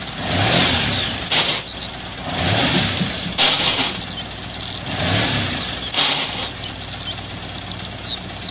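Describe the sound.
A car engine runs while the driver fails to engage any gear, revving up and down in three swells with a few brief, harsh bursts breaking through between them.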